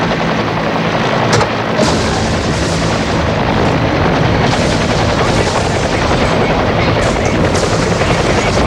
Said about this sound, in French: La chasse à l'homme à l'hélicoptère se fait dans toutes les rues.